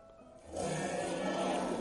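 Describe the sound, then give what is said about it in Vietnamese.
A dragon's roar, a deep, sustained roar that bursts in after a moment of quiet and holds at full strength to the end. “Nhưng đúng vào lúc này, rõ ràng có một tiếng long ngâm khác vang lên.”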